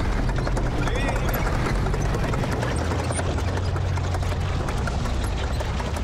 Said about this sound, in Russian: По дороге между домами едет тяжелый танк КВ-2. За ним несколько Т-34.